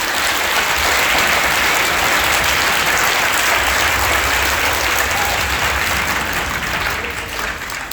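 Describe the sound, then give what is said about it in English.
Audience applause for students after their presentations at a public event, a dense, steady wash of many hands clapping that holds for several seconds and eases slightly at the end. “Can we give them a hand, please?”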